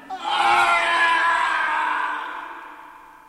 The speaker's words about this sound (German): Warum schreit ihr plötzlich?